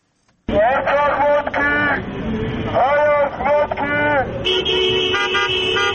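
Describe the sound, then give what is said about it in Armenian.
Car horns honking during an opposition motorcade rally through city streets, with several overlapping horn blasts in repeated bursts over a rumbling traffic background and a higher steady horn tone near the end. “Փաշինյանի հրաժարականը պահանջող ընդդիմադիրներն այսօր էլ մայրաքաղաքի տարբեր թաղամասերում ավտոերթեր իրականացրին։ Մեքենաները դանդաղ վարելով նրանք մյուս վարորդներին, անցորդներին կոչ էին անում միանալ”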